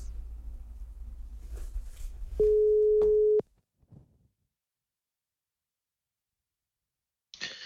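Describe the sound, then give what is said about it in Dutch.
A single steady ringback tone lasts about a second as a phone call is placed. Low background noise comes before it, and silence follows with a faint brief click. “Ik ga hem even bellen.”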